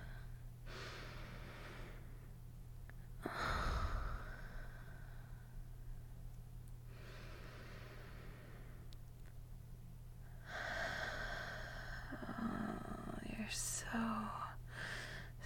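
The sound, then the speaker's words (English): Slow deep breathing during a guided inhale-and-exhale exercise, with several soft, airy breaths that swell and fade over a low steady hum, all quite faint. “And exhale. Inhale. And exhale. Keep going.”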